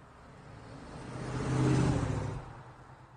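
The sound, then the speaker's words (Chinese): A car engine speeds up as the driver presses harder on the gas pedal. It is a fairly faint, low hum that swells to a peak mid-clip, then eases off again. “踩油门的力道加大了许多。”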